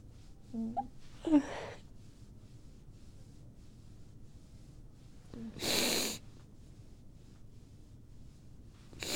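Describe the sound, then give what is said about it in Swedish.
Snorting mucus up through the nose: a few short, wet nasal sniffs early on, then after a quiet stretch a longer, louder rush of air drawn in. “Ursäkta Jag drog in slem”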